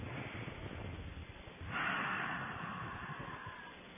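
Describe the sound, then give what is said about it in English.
A long, soft, airy breath rises and then holds as a steady hush during a guided relaxation with eyes closed. The sound is faint and breathy, with no talking. “take a couple of deep breaths”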